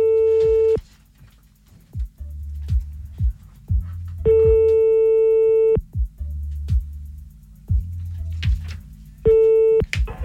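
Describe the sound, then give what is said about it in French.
Telephone tone after a call is hung up: a steady, pitched beep sounds in long bursts a few seconds apart, with clicks and low humming gaps between them and no talking. “Vous avez raccroché.”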